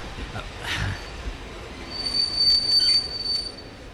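Train wheels squeal as a train pulls into a station, a thin, high-pitched screech that holds steady through the second half over a broad rumbling rail noise.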